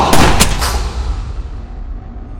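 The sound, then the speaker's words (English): A gunshot fired at someone's back: a few sharp, loud blasts in quick succession at the start, then a long rumbling tail that slowly fades. “Vija rises from the table and shoots Latos in the back.”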